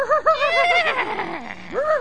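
Horses named Silver and Scout whinnying loudly: a long, wavering neigh that slides downward, then a brief rising call at the end, with no talk over it.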